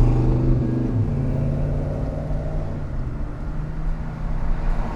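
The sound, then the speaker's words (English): A car engine in a hurry gives a low, steady rumble with a droning harmonic hum, swelling somewhat louder toward the end. “This guy's in a real hurry, too. I'll bet you he squeals his tires.”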